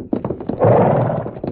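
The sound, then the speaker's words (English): Stallion sounds in a Western radio drama: a few dull hoof-like thuds around a louder, rough burst in the middle, loud and close. “There's the kid stallion. Better take him along with us. Yeah. Get him. Steady there. Steady.”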